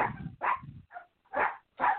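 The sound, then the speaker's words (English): Dogs barking excitedly as a guest arrives at the house: several sharp, separate barks in an uneven rhythm, loud and alone with no voices over them. “let me go ahead and get some music playing while these dogs are going crazy”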